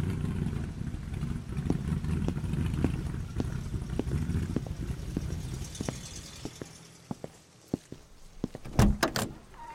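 A car pulls up to a corner outside a courthouse. Its faint, low engine rumble eases off and fades, followed near the end by a few sharp clicks and knocks.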